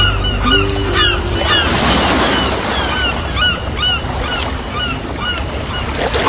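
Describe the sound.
Surf washing onto a beach in a steady, rushing roar, with many short honking bird calls repeating above it.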